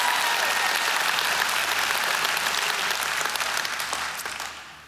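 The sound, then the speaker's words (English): A church audience applauds during an Easter-season service. Continuous, loud clapping from many people holds steady, then gradually fades away in the final second. “Let's give it up for Jesus in this place. Come on, give it up for Jesus.”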